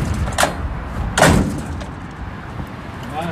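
A door is pulled shut at an elderly woman's home: a lighter knock, then one heavier dull thud, over a low background rumble.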